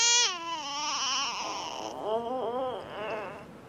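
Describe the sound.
An infant cries loudly with no talk, opening with a high wail that slides downward, then breaking into a wavering, quavering wail.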